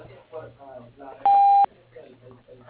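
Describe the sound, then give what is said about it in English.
A single steady voicemail beep, a mid-pitched electronic tone lasting under half a second, sounding between stretches of a person talking. “Please leave your name and number at the tone with your message”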